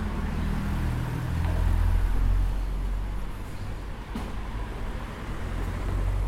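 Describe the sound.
Street-corner traffic noise from vehicles passing, a steady, loud, low rumble that swells slightly and continues throughout without any clear break.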